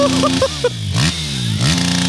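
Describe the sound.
A CR motorcycle engine revving hard near its limiter, a loud buzzing roar with repeated rising sweeps in pitch as the throttle is blipped, continuous throughout.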